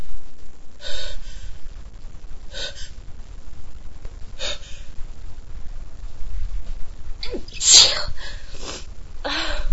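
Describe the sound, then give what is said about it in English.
A sneeze preceded by a few sharp gasping inhales spaced every couple of seconds, then one loud, bursting sneeze near the end, followed by more quick breaths. “I'm gonna sneeze again”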